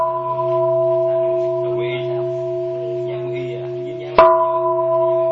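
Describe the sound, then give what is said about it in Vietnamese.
A bell rings during a Buddhist precept ceremony at a retreat, its steady resonant tones humming on, then a fresh sharp strike near the end renews the ringing, with faint voices murmuring underneath. “Bây giờ quý vị lắng nghe nè, đánh 3 tiếng chuông nè.”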